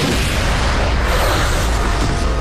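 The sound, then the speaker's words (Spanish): Fireworks exploding over Paris during a national holiday show with drones and lights: a dense, continuous barrage of loud booms and crackling bursts with no pause. “Un espectáculo de 1.600 drones, luces y fuegos artificiales iluminó el cielo de París por la Fiesta Nacional de Francia.”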